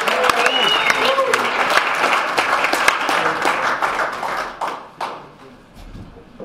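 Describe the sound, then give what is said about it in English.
Applause from an audience welcoming a speaker at an alcoholics' sobriety meeting in Santa Barbara: dense, loud, steady clapping with some voices mixed in, thinning and fading over the final seconds. “And now let's put our hands together and welcome Tim W. from Santa Barbara.”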